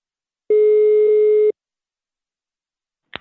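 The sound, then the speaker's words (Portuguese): A telephone ringback tone sounds while a call is placed: one steady, mid-pitched tone lasting about a second, then silence and a short click near the end. “eu vou ligar agora pra Aparecida”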